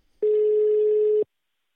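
A single ringback tone on an outgoing telephone call: one steady, mid-pitched beep lasting about a second, heard alone between stretches of silence.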